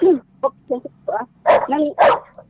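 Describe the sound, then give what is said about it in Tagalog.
A dog barks in a quick, uneven run of several sharp barks, moderately loud, the last few fuller and louder than the first. “ang naririnig ko po yung tahol ng aso. Oo nga po, malapit po ako sa aso”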